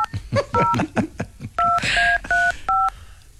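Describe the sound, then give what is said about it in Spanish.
Touch-tone telephone number being dialed: a quick run of short, clear dual-pitched beeps, mostly bunched in the second half, each one a crisp electronic tone of steady pitch separated by brief gaps. “Estamos marcando usted otro número.”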